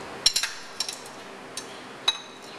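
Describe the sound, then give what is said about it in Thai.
Light metallic clinks of a utensil against a cooking pot as firm tofu is added, several sharp taps in a short cluster followed by a few isolated ones, with no voices. “แล้วก็ใส่ครับใส่นะครับตัวเต้าหู้แข็งเนี่ยลงไปนะ”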